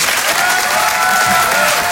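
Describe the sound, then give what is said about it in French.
Audience applause for a performer in a hall, a dense, steady ovation of many hands clapping, loud and unbroken from start to finish. “Je vous demande de l'encourager très chaleureusement, de faire une ovation, s'il vous plaît, à Karine Du Bernay.”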